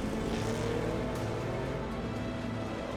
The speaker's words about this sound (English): At 10 a.m., Robbie Gordon, in the number 77 trophy truck, is first off the line.